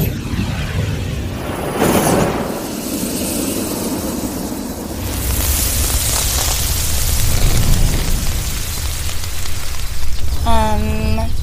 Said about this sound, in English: Grab the flamethrower, Moose Bro, and hit those candles.